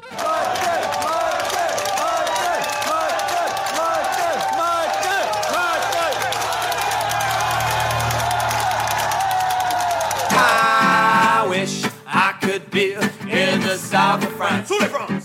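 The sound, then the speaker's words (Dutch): Murmuring, festive crowd noise fills a café in Breda. A steady blend of voices and chatter runs loudly throughout, then breaks into choppier, intermittent sounds near the end. “U hoort wat gemompel en feestgedruis op de achtergrond.”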